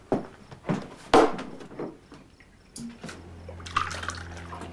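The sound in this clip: A drink is poured into a glass, liquid splashing in a few short bursts over a soft, steady background with faint clinks and rustles.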